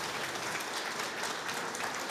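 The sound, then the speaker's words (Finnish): Audience applause greets the first singer taking the stage at a Finnish singing event. The clapping is dense and steady, holding an even loudness throughout. “Ja Koskelan Mika tulee raikuvien aplodien saattamana.”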